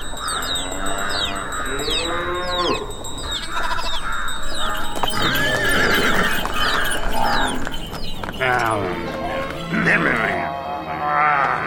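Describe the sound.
Goats bleating among other livestock held in an animal pound, with repeated wavering cries overlapping almost continuously at a fairly loud, steady level.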